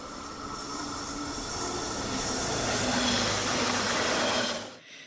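A train pulling out of a station rolls with a steady rumble and hiss, with squealing wheels. The sound swells partway through, holds, then cuts off abruptly near the end.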